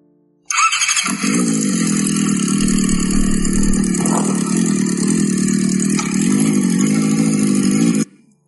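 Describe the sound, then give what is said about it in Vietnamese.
A convoy of about ten motorcycles arrives and stops together: a loud, steady engine roar with a high squealing edge holds for several seconds, then cuts off sharply near the end. “Một đoàn xe mô tô dễ phải đến 10 chiếc dừng lại cùng một chỗ.”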